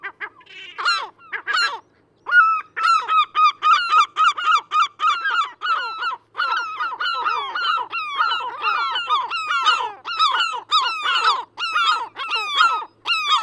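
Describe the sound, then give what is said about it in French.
Calls of a gull, a web-footed seabird at the seaside: many loud, harsh, nasal cries in quick series, with a short pause early on and no voices. “Je suis certain que vous avez reconnu cet oiseau aux pieds palmés. Mais oui, c'était le cri du goéland.”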